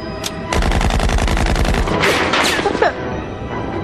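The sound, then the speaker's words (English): Machine gun fire in a rapid, loud burst of many shots lasting over a second, followed by a few noisy crashing bursts. “They're shooting at us. We gotta fire back.”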